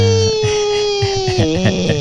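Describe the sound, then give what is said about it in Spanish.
A voice imitates actress Victoria Ruffo's melodramatic crying: a long wavering wail that slides slowly down in pitch, then breaks into choppy, sob-like pulses. “Llora como doña Victoria Rufo.”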